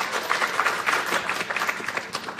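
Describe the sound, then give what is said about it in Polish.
A studio audience applauds to welcome guest actors from a satirical television series. The clapping is dense and steady, with a crisp, even texture and no pauses over its brief span. No one talks over it. “przywitajmy panią. Brawa.”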